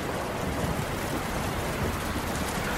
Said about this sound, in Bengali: এর মধ্যেই আকাশ কাঁপিয়ে ঝড় নেমে এলো আর সেই সঙ্গে প্রবল বৃষ্টিধারা